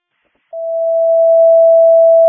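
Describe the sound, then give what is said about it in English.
A fire department dispatch alert tone sounds during a test. After a short silence, one pure, steady tone holds at a constant mid pitch and swells slightly louder until the end. “stand by for a test of your tones, a test only.”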